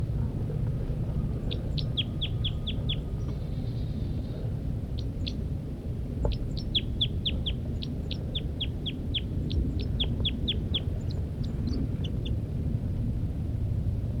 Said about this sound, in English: The female continues to give flight calls from the nest.